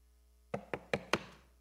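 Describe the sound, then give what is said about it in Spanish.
Four knocks on a door: crisp, evenly spaced raps with short decaying tails, fairly quiet and heard alone without voices. “Y tocan a la puerta”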